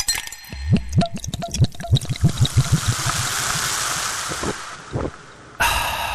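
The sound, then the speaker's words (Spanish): Coca-Cola opened and poured, giving a loud fizz: a run of bubbly crackles and pops builds into a steady hiss, which drops away briefly before a final burst of fizz. “¿Vos sabés cómo se escucha el gran sabor de una Coca-Cola?”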